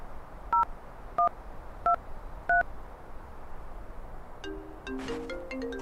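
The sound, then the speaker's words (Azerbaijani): Four evenly spaced telephone keypad tones sound as a number is dialed on a borrowed phone. Each beep is short and clear. A cluster of further tones follows near the end. “Telefoningizdan telefon qilsam bo'ladimi?”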